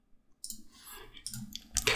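Computer mouse clicks while installing a virtual machine on a home server: faint, crisp clicks that come close together, with soft handling noise between them.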